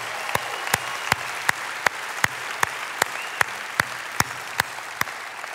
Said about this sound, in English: I'd like all of us to put our hands together and welcome the East Valley.